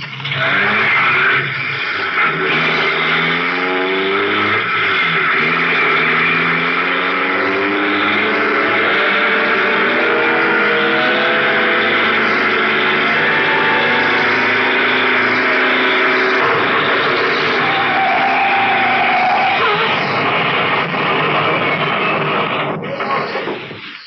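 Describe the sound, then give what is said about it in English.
A car engine races hard as the car speeds to crash through a roadblock: a long, loud, sustained roar at high revs, its pitch climbing in the first seconds, then holding a steady, strained drone. “Try to crash that roadblock.”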